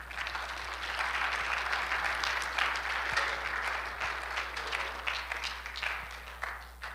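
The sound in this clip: An audience applauds to welcome speakers onto a stage. The clapping is dense and steady and keeps going throughout, easing off slightly at the end.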